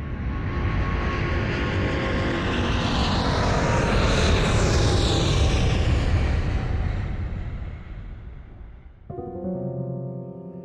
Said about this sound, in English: Flight 613 with service to Hollywood is ready to depart, so please fasten your seatbelt, put your tray tables and seatbacks into their fully functional upright and tucked positions, because here we go!